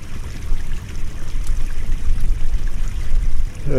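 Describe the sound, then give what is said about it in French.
A small meltwater stream from the melting Okjökull glacier runs downslope in a steady, broad rush and trickle of flowing water, continuous and fairly loud throughout. “Voilà, un petit ruisseau surgit. C'est de l'eau de glacier. C'est qui reste du glacier Okyukut qui est en train de fondre et de dévaler la pente.”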